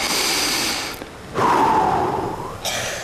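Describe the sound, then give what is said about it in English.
A single deep breath taken during a sermon, heard as a long, soft, breathy rush of air lasting about a second, alone without any talk and following a brief quieter pause. “Take a deep breath.”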